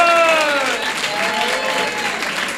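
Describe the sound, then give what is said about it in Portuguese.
Applause from a church audience: dense, steady clapping from many hands that stays loud and even throughout. “E as palmas é para Jesus de Nazaré!”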